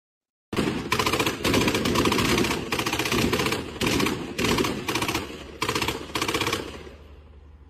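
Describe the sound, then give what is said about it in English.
Automatic gunfire from a man shooting one-handed at a building: after a moment of silence, loud sustained bursts follow one another with brief gaps, and the last burst tails off. “So all you're looking at here is a guy who's with one hand, so clearly not aiming at anything, opening fire on a building”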